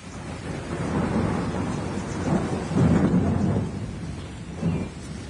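Torrential rain with rumbling thunder, a sound effect for a radio drama: a steady, dense downpour with deep rolls of thunder that swell loudest near the middle and again briefly toward the end, with no voices.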